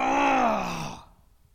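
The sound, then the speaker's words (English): A preacher voices a deep, guttural groan during a sermon: one sustained low moan that slides lower in pitch and fades out, alone without other talk. “he just lets out a deep, guttural groan.”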